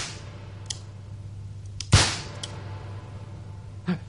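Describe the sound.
A pistol is fired in a duel: one sharp, loud crack with a short decay stands out against a quiet, hissy background, followed later by a much fainter knock.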